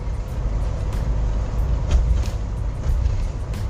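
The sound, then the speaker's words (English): Road noise from a car being driven: a steady, dense low rumble that holds at an even level throughout, with faint airy hiss above it and no voices. “So, sorry if you hear that I'm currently driving”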